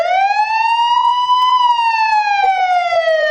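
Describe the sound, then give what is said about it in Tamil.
An emergency vehicle siren wails in one long smooth sweep, its pitch rising slowly and falling again, loud and steady with no talking. “இந்த மாதிரி siren சத்தம் கேட்டா என்ன பண்ணுவீங்க?”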